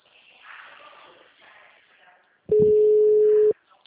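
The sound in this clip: A single steady one-second ringback tone of an outgoing mobile phone call, heard after a faint, muffled voice-like murmur.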